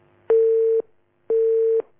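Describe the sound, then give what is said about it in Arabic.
Tone on a disconnected telephone line: two identical steady, mid-pitched beeps, each about half a second long, separated by a pause of equal length, clear and alone. “طيب واضح الاتصال انقطع.”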